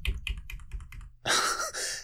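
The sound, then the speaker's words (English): Typing on a computer keyboard: a series of distinct, crisp key clicks at an uneven pace, then a denser, louder stretch of rapid clicking and clatter. No voices. “I just got some good typing sound in myself.”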